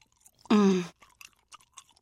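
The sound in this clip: People chewing macaroni and cheese. A short, loud, full-bodied burst is followed by soft, scattered, faintly crunchy chewing sounds.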